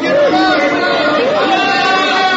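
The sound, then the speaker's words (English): Crowd shouting along a river bank: a loud, continuous clamor of many voices, holding steady throughout with no pause. “Suddenly a shout went up from the crowd along the bank.”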